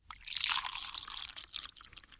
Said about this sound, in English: A little bit more. I can get a little bit more into your cup. Let me... Yep. Ah, what the heck? I'll just dip it all in.